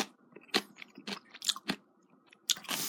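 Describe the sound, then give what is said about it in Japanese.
Crunchy chewing of orange fukujinzuke pickles: a few sharp, crisp crunches at irregular intervals with softer chewing between them, quiet and alone. “そして、福神漬けいただきます。うん。うまい。”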